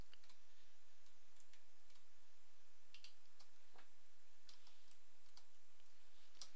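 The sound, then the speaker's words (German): Typing on a computer keyboard while entering a file extension in software: faint, sparse key clicks scattered irregularly over a steady background hiss, with no talk. “Dazu schreibe ich einfach nur hier hinter die Endung.png 8 oder 24.”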